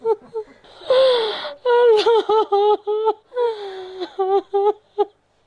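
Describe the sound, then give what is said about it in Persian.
A grieving mother in Kabul cries for her two daughters, killed in a car bombing. Her high, quavering voice breaks into drawn-out wails and short, shaky sobs, with gasping breaths between the cries. “این صدای گریه مادر”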